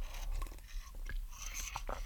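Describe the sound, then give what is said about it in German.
Sipping sounds as someone drinks bitter, unsweetened tea from a coffee cup. A few short, wet, clicky mouth noises come at an uneven rhythm, faint and with no talking. “Dieser Tee ist wirklich nicht besonders genießbar. Ich muss mir hier einen Schluck nehmen.”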